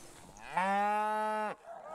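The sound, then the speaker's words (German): A dairy cow gives a single long, loud moo while the herd moves onto a new pasture. The call is rich and steady-pitched, lasts about a second, and stops sharply, with low background noise around it. “Die Milchkühe ziehen sofort auf die neue Weide.”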